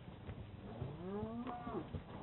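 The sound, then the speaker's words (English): A cow from a bunch of cattle gives one long, drawn-out moo that rises in pitch, heard over a steady, noisy low background. “Now, I can take this bunch of cows.”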